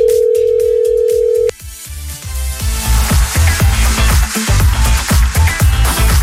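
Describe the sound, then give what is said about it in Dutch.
A steady telephone dial tone sounds for about a second and a half while a call to a quiz contestant is being placed. It cuts off abruptly, and loud, rhythmic music with drums takes over. “We gaan bellen met kandidaat nummer 1.”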